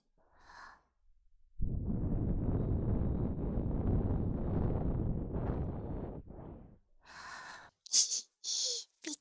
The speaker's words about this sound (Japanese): こうして息を吹きかけるとお耳の緊張がほぐれて耳垢が取れやすくなるんですよ。